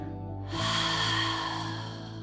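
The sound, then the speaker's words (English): A deep exhale through the open mouth sets in after a brief moment as a long, breathy rush of air lasting about two seconds, over a steady low tone. “Exhale, release, open the mouth.”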